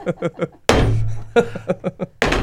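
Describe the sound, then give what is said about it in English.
A heavy thud as an object is thrown against a wooden wall, a sharp impact with a short ringing decay, set among people talking. “So if I throw this up against the wall, it should stick, right? I mean, thrown properly, of course.”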